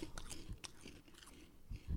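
Someone chews crunchy corn snack doodles, giving faint, crisp crunches and bites in a few irregular clusters. Slightly heavier crunches come near the end.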